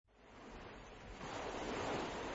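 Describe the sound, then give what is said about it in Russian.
Ocean waves wash on the shore as a soft, hissing rush of surf that swells louder midway and holds steady to the end. “В раздумье сел герой на берегу вечно шумящих вод океана.”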